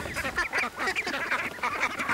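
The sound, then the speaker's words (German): About ten ducks quack near water, with a dense, continuous chorus of overlapping nasal calls at a steady, fairly loud level and no pause. “Ich hatte drei. Zehn Enten.”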